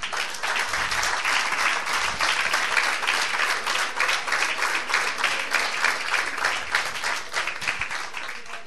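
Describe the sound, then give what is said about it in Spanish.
Applause from an audience during a sermon, dense and sustained clapping that stays at an even level throughout without pauses. “Ahí va un aplauso, hermano.”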